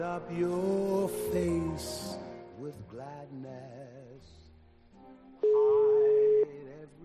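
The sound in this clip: After a stretch of voices, a telephone ringing tone sounds while a call connects: a single steady, mid-pitched tone that lasts about a second and stands out clearly above the quieter sounds around it.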